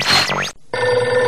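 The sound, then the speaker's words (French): A telephone rings: a loud warbling electronic burst, a brief silence, then a steadier, bright ringtone that continues without any voices. “le téléphone qui sonne”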